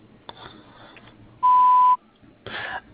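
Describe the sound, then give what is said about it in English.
A single loud electronic voicemail recording tone beeps at one steady pitch for about half a second, with faint line hiss and rustling before and after it. “At the tone, please leave your name, telephone number, and a brief message, and I'll return your call as soon as possible.”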